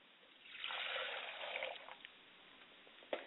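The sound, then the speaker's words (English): Water trickling and splashing softly as hands and face are washed before a candle-lighting ritual for ancestors, a faint gentle hiss that swells for over a second, thins into a few small drips and ends with a light tap. “I must also wash my hands and face before I greet the ancestors so I don't greet them with a stale face.”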